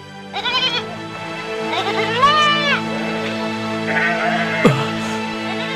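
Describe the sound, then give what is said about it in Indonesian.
A herd of goats bleats, with several wavering, nasal calls overlapping and repeating over a steady droning background. The bleats are fairly loud. “Dari upahmu, aku membelikan 2 ekor kambing. Kemudian kambing itu berkembang biak hingga sebanyak ini. Maka seluruh kambing ini adalah milikmu.”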